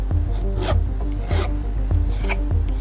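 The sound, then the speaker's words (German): Metal file rasping on a ring at a goldsmith's workbench, with steady back-and-forth strokes in an even rhythm. Each stroke gives a gritty, bright scrape, and it continues throughout without voices. “Goldschmiedin Caro, die Inhaberin von Goldzauber, sitzt an ihrer Werkbank und feilt an einem Ring.”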